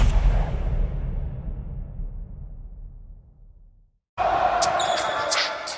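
Basketball dribbling during a live 2017 NBA Finals game, heard as dense, loud arena noise that fades to near silence and cuts out, then returns abruptly at full level with high squeaking tones above it.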